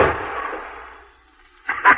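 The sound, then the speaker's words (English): A gunshot fired at chickens: a loud, noisy blast whose rumbling tail fades away over about a second, then two short, sharp bursts after a brief quiet gap. “That'll teach them to scratch my seed. Not a bad shot”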